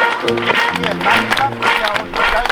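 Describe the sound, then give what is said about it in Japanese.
An audience claps along in rhythm to a song, with sharp claps landing on an even, repeating beat over voices and music. “今度は。うんぱのパーのところで手拍子やっていただけたらありがたいんですが、ちょっと練習します。”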